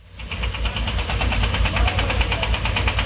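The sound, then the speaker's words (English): Heavy machinery, including diggers, cranes and lorries delivering caravans in the hills of Hebron, drones with a steady knocking engine rumble. The sound swells in the first moment, then holds loud and even throughout. “This is the sound of the heavy machinery that's reshaping the landscape in the hills of Hebron. Diggers, cranes and 6 lorries delivering high-end caravans.”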